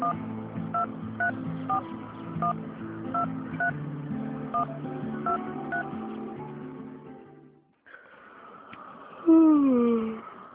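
A telephone number is dialed with many short, evenly spaced touch-tone beeps over a steady tone, then a brief silence followed by another tone that ends with a loud falling note.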